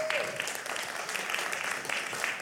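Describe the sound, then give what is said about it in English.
Audience applause as a gathering gives a speaker a hand clap, a full, steady burst of clapping that stays even and sustained throughout. “Give Esther a great hand clap,”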